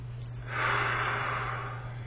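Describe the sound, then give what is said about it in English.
A single long, deep breath taken during a tapping session for feeling lazy, swelling and then easing off over a steady low hum. “Take a deep breath.”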